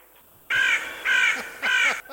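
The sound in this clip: A crow caws three times, each call a loud, harsh, evenly spaced squawk, with brief quiet gaps between them.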